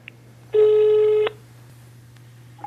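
A telephone call being dialed: one steady, fairly loud electronic tone lasting under a second, with faint clicks afterward.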